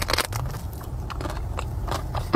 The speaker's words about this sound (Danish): Og så ser man hende ellers bare gå ombord i de her flødeskumskager bid for bid.